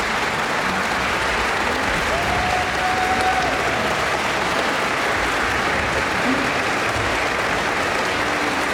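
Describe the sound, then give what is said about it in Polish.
Applause from a studio audience after a concert performance in a radio station's concert studio. Dense, steady clapping of a crowd carries on without a break for the whole clip at a constant, loud level. “Te brawa muszą wybrzmieć.”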